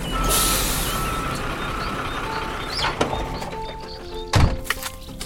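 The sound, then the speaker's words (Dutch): A large moving truck arrives with a low engine rumble. An early hiss of air brakes is followed by faint, steady reversing beeps, then a heavy thunk near the end, with no talking. “Oh, wat toevallig. Daar zal je ze hebben. Even kijken. Oh ja hoor, een grote verhuiswagen.”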